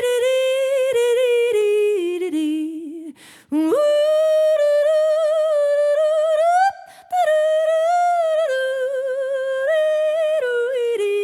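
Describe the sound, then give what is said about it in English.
A full-on wordless yodel from a singer, loud and alone, leaping sharply between chest and head voice in rapid flips, with two brief breaths near the middle before the warbling continues. “And can you give us a little taste of a real full-on yodel? A full-on yodel.”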